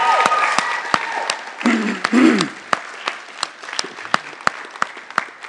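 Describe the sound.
Audience applause for an engagement announcement, dense, loud clapping with a brief vocal cheer partway through, then thinning into a few scattered, separate claps toward the end.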